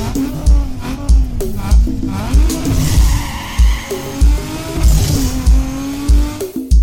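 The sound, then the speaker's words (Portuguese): Engine of a Chevrolet Chevette being revved, with loud throbbing pulses repeating in a rough rhythm and a droning tone that wavers up and down in pitch. “Olha o motor do meu Chevette, olha aí! É potência, não?”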